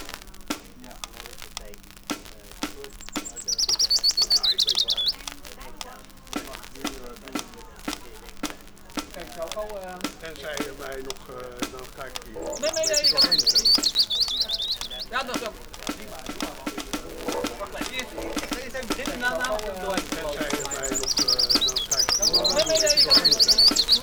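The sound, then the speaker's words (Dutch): High bird chirps and twittering trills from a recording of bird sounds come in three bursts over a steady bed of clicks, rustling and talking voices. “En aan de andere kant hebben we nog Hoor de Vogels met alle vogelgeluiden.”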